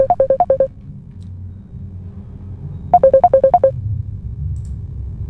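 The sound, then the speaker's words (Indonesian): WhatsApp incoming call ringtone: two quick bursts of short, bright electronic pips, each a rapid evenly spaced run, separated by a pause and sounding over a low steady hum with no talk. “Gayung bersambut, ada yang menelpon lewat WhatsApp, Ibu Elisa di Pajang. Akan saya angkat.”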